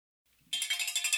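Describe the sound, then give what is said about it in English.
The shop door chime at the Trail Runner Nation store rings as the door opens. A faint low rustle comes first, then a bright, tinkling chime starts abruptly and pulses several times while it keeps ringing. “It is the sound you hear when you open up the door at Trail Runner Nation store.”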